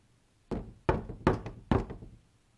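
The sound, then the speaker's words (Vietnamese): Four gentle knocks on a door of a room at the back of a temple, each a soft, hollow thud with a short decay, evenly spaced in a slow, deliberate rhythm. “Lúi húi bước đến một căn phòng, nhẹ nhàng gõ cửa.”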